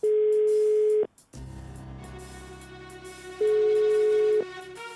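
A phone's ringback tone after a number is dialed: two long, steady, mid-pitched tones, each lasting about a second, separated by a pause of several seconds filled with other sound.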